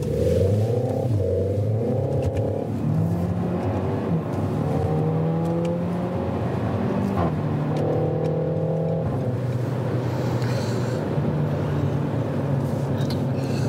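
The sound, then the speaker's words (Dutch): A new Renault Megane RS hot hatch being driven: its engine revs up repeatedly, the pitch climbing and then dropping at several gear changes, a continuous loud growl with a low rumble underneath. “ging de weg op met een nieuwe Megane RS van Renault.”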